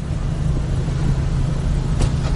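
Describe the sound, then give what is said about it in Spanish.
A grey van drives off with a steady, low engine rumble that stays level and even throughout. “Arranca y se marcha. Lisbeth gira y sigue a la camioneta.”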